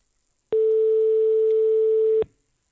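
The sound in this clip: Ringback tone on an outgoing telephone call: one long, steady mid-pitched beep lasting under two seconds, starting and stopping abruptly, with silence before and after.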